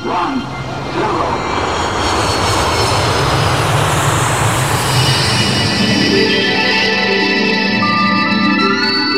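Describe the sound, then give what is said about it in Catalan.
An aircraft engine roars as a magic ship takes off in a story, a loud, dense, sustained rumble that keeps up steadily throughout with a whining tone emerging later. “Som a punt d'enlairar-nos amb la nau l'Afell Llunes.”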